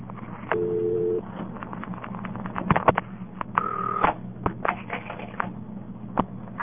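A telephone is being dialed. A brief steady line tone is followed by scattered clicks and handling clatter, then a short two-tone dialing beep, all fairly faint.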